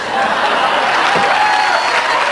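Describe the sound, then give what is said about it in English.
Studio audience applause on a talk show, a dense, steady wash of clapping that holds at an even, fairly loud level for the whole stretch without any voices over it. “Studio applause.”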